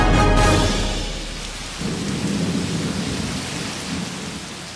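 Heavy rain and thunder: a loud, low rumble of thunder at the start gives way to a steady, dense hiss of falling rain that continues to the end.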